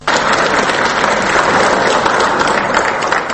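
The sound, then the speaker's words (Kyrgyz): Loud, dense applause in Kyrgyzstan's parliament greeting President Roza Otunbayeva as she voluntarily hands over power, a continuous roar of many hands clapping at an even level. “Кыргызстандын тарыхында биринчи жолу өз ыктыяры менен бийликти өткөрүп жаткан президент Роза Отунбаеваны парламентте мына ушундай кол чабуулар менен тосуп алышты.”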